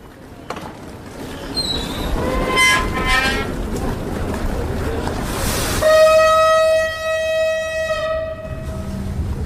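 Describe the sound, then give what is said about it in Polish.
A train travels on the rails with a continuous rumbling roar, and a long, loud horn blast cuts in partway through and holds until near the end. “Szanowni pasażerzy, to już na stacja Słowiańska. 4 godziny jazdy pociągiem na wschód.”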